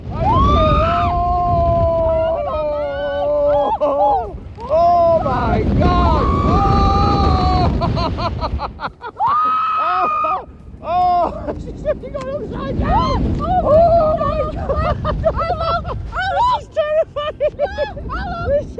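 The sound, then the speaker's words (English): Riders scream and whoop on a 138-foot roller coaster, the tallest of its kind in the UK, at Blackpool's Pleasure Beach: overlapping high, wavering shrieks and yells over steady rushing wind noise, carrying on throughout. “Well, that's the sound of people on roller coasters, isn't it?”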